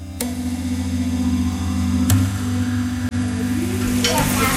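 Food cooks in a pan at a family home in West Palm Beach: a steady, hissing sizzle runs throughout, broken by a few sharp knocks, with a low steady hum beneath.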